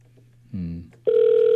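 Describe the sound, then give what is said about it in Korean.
A telephone ringback tone on an outgoing call that goes unanswered: after a short burst of sound, a steady, unbroken tone starts and holds to the end over a low hum. “일단은 이제 우리 권사님에게 전화를 먼저 걸고, 근데 권사님이 전화를 안 받으시네?”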